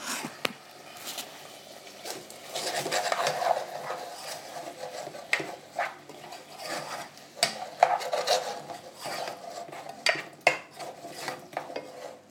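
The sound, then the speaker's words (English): Food simmering in a pan on the stove, giving a faint, irregular crackle of small pops and bubbling with occasional sharper ticks and scraping textures, and no talking. “But if I put this up to the pan, you can hear it simmering away”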